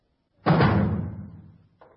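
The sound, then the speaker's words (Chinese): A door being slammed shut: one heavy, loud thud followed by a long fading rumble, with no voices. “关上门，把门都关上。”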